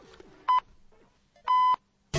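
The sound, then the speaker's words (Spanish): Electronic beeps: three clear, steady tone pulses, the first short, the second longer and the third cut off at the end, with faint low murmuring between them. “Ahora después de los pitidos sigo.”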